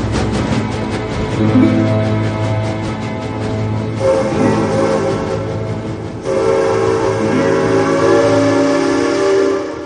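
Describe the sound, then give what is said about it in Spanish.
A train pulls out of a station with a loud, steady rumble. Long whistle or horn tones sound over it and shift to new pitches twice. “Poco a poco el tren de las 3 y 10 abandona la estación de Contation.”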